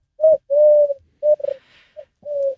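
Wood pigeon cooing in a short phrase of low, hollow coos. Some coos are drawn out and some clipped, with one brief pulsing note in the middle, all heard alone against silence.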